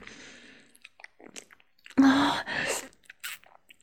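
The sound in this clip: Chewing and eating sounds: a few faint soft bites, then two loud wet bursts of mastication close together, followed by scattered smaller crunchy chews, with no talking.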